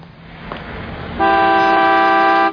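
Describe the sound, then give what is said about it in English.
A car horn blares in one long, sustained honk over a rumbling street background, held steady at a bright, buzzy pitch for more than a second before cutting off. “Keep leaning on that tooter”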